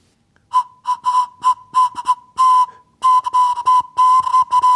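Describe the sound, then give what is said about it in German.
A homemade flute carved from a carrot sounds one steady, breathy whistle tone, blown in many short bursts of varying length, with longer sustained notes toward the end and no talk. “Jetzt bräuchte ich nur noch so Grifflöcher, damit ich unterschiedliche Töne spielen kann. Bis jetzt macht die Möhre nur einen einzigen Ton.”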